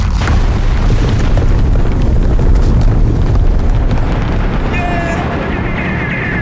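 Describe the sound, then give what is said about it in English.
An explosion as a secret headquarters blows up: a loud, sustained roaring boom with dense low rumble filling the whole stretch, and faint thin tones emerging near the end. “The Illuminati secret headquarters is gonna blow! Fire in the hole!”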